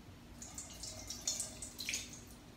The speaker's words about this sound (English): So we take the vessel of water and pour over the right hand, and then pour over the left hand,